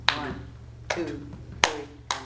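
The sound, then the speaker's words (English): Four sharp, crisp hand claps from a group practising a counted rhythm, evenly spaced and cleanly separated, with a faint steady hum underneath. “Okay, can we do it our do the claps? Claps?”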